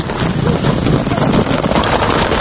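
Clattering hooves of a herd of horses driven out to the fields in the countryside: a dense, loud, continuous drumming with no separate steps.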